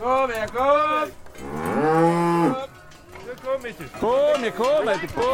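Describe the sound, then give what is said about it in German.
Harz Red Highland cattle lowing at a cow-ball festival in Tanne in the Harz: several loud, drawn-out moos, some overlapping, with deep tones bending up and down between short pauses. “Das ist der Sound vom Harzer Rotes Höhenvieh.”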